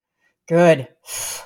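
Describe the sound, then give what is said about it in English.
A deep breath taken during a guided movement exercise: a short voiced, sighing sound followed after a brief pause by a longer, airy rush of breath. “And I'm going to ask you to breathe.”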